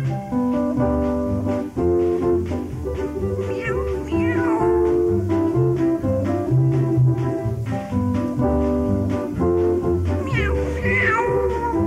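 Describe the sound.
A kitten meows in a children's song, with a few rising and falling meows set over steady musical accompaniment throughout.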